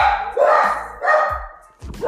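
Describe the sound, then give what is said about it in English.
Dogs bark loudly in a steady rhythm, with about three long, full-throated barks over two seconds, each rising quickly and then tailing off. “Sorry for the dogs, y'all.”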